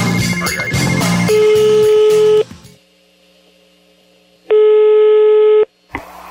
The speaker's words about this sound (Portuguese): Eu vou ligar de novo agora,